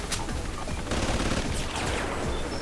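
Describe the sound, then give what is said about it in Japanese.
Rapid gunfire in a video game, a dense, continuous barrage of overlapping shots with no clear gaps between bursts. “撃て ー、撃て、もう一発 当たった。”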